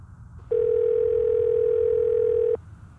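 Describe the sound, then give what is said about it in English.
A telephone dial tone while a call is being placed: one steady, even tone that starts abruptly, holds for about two seconds and cuts off cleanly over quiet background. “Let me call Wayne and let him know.”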